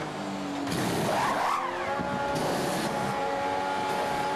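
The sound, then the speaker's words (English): A Formula One Ferrari race car coming into the pits at the Miami Grand Prix, its high engine whine swelling and bending up then down in pitch, with steady engine tones continuing afterwards. “Here is Hamilton in the Ferrari coming in.”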